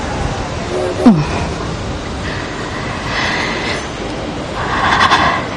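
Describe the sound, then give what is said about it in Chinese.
A passenger train departing from a railway station gives a steady, loud rolling rumble with a brief squeal of wheels early on, and the noise swells again toward the end. “要发车了。”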